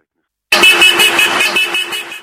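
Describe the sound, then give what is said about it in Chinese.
Car horns honking in a Saturday-night pro-government car rally driving along Moscow's Garden Ring road, loud overlapping toots pulsing in a quick rhythm over a steady horn tone and engine noise. “亲政府势力仲组织好多汽车悬挂支持普京标语同普京画像，星期六夜间喺莫斯科嘅花园环路上行驶鸣笛。”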